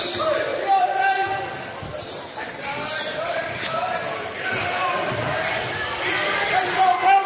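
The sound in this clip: A basketball is dribbled on a court during a game, with repeated dull thuds under a man's steady play-by-play commentary and crowd babble.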